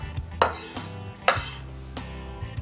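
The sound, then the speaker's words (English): Green onion being minced with a knife: a few sharp, irregular knocks with softer taps and quiet gaps between them. “All right, and we're gonna mince our green onion.”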